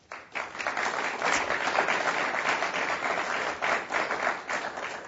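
Audience applause welcomes guests to a panel discussion on nuclear power. Many hands clap in a dense, even wash that starts abruptly and holds steady for about five seconds.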